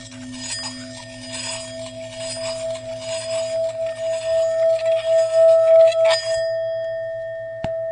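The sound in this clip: Metal bowls made of seven different metals ring out, three of them sounding together in long, overlapping sustained tones with a shimmering, pulsing texture, followed near the end by a sharp knock.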